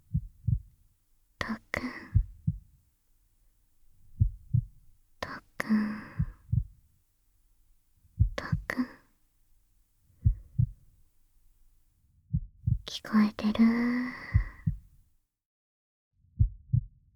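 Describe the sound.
A slow heartbeat of soft, low double thumps repeats steadily at an even pace, with a gentle whispered voice heard in brief gaps between the beats.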